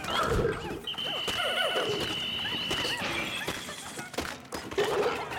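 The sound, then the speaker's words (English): Snorting, whinny-like squeals and clattering hoof-like thuds come from a frost pig creature in a video game. They sit over busy, layered game sound effects, with a long, steady high tone holding through the middle. “Oh, look at this. We got a frost pig.”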